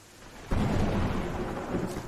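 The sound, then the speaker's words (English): Rain comes down as a steady, dense hiss. It swells in abruptly after a quieter opening, then stays loud and even to the end. “I'm sure the rain will let up soon.”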